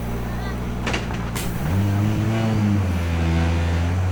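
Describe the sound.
A rally car's engine rises in revs and settles into a strong droning pull as the car leaves a time control, with talking over it.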